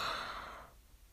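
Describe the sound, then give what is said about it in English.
A person yawning, heard as a single soft, breathy exhalation that fades away within the first second, followed by near silence. “here come the yawns, excuse me”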